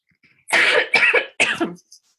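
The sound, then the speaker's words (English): Throat clearing and coughing from a tickle in the throat: three rough, raspy bursts in quick succession, moderately loud and heard alone. “Now I have a tickle in my throat.”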